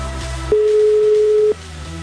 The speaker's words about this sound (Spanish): Ahí estamos marcando a otro número. Ahí está sonando.